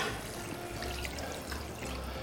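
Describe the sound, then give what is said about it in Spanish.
Water is poured into a pan of cooking chicken, giving a steady, soft, unbroken hiss and trickle throughout, quiet and with no voices. “Le falta un poquito de agua. Ya le he echado un poquito antes, como voy a hacer ahora,”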